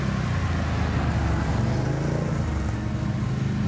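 Engine drone of a quad bike driving through a forest at night, a steady, loud, low rumbling motor sound that continues unbroken throughout.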